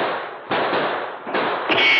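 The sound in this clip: A gunfire volley among snow-laden trees in a forest: a few sharp, loud bursts rising out of a steady rushing crackle, with no talk.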